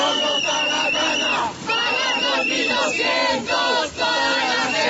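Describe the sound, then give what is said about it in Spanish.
Transmilenio riders protest a fare rise at stations in Bogotá, chanting in unison: loud, rhythmic shouted phrases with a few brief breaks between them. “esta mañana usuarios del sistema Transmilenio protestaron de nuevo, lo hicieron en estaciones y portales, pero lo importante sin bloqueos. Alexei Castaño. En diferentes portales y estaciones de Transmilenio, esto era lo que se escuchaba esta mañana.”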